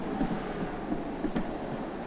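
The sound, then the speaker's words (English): A number 11 tram pulls into a stop in Dresden with a faint, low, steady rumble. A few soft knocks and one short sharp click sound over it, and light wind noise runs underneath. “The tram has just arrived at a stop.”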